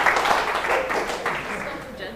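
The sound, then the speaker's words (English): Audience applause, a busy wash of many hands clapping with voices mixed in, fairly loud and slowly easing off toward the end. “Big round of applause. Thank you much for it.”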